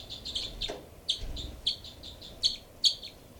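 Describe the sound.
Two birds call, giving many short, high chirps in a loose irregular series, faint and thin over a quiet low rumble.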